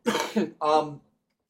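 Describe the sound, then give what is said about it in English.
A short cough from a person, two voiced throaty bursts in quick succession, the second slightly longer, heard alone with silence after. “I had a thought and then I coughed”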